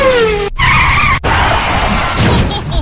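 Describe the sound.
A Porsche 996 Carrera 4 skids with loud, broad tire noise over engine roar, broken by two brief dropouts early on, then continuing harsh and steady.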